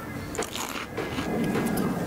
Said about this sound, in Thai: ดูสิครับคุณผู้ชมมันเหมือนแอปเปิ้ลแอปเปิ้ลเหมือนไหมอ่ะเดี๋ยวเรามาชิมกันดีกว่าครับว่ารสชาตินะครับของงาช้างแดงนั้นจะเป็นยังไง